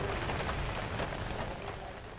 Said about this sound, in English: And RP heads back out into the monsoon rain.